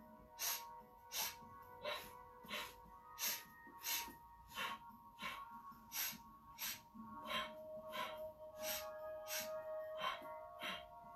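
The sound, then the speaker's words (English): Many sharp, faint breaths in a steady, paired rhythm, from a breathing exercise that matches each breath to a step when climbing stairs. “This breath also can help you get upstairs fast without getting winded. So you would match each breath to the step. But first, let's just review and do the breath together. So it's like this.”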